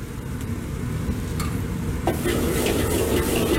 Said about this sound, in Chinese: 油温6成热之后加入切好的料头下锅爆香，料头爆香之后开始调味